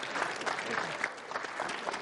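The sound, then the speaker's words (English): Applause from a small group at a lighthearted video challenge, a quick bright patter of clapping with a few louder individual claps standing out, moderately quiet and lasting about two seconds with no talk. “Give a round of applause.”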